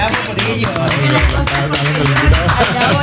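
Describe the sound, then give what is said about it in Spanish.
Several people clapping in applause while voices talk over them, a quick run of claps continuing steadily beneath the conversation. “Sí, hay que aplaudirlos.”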